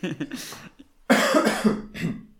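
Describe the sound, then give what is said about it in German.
A few raspy, throaty coughs from a tired person, an initial cluster of short bursts, then after a brief silence a louder, harsher fit followed by one more smaller cough. “Ja, mit diesem Husten können wir ja gleich in die Folge starten.”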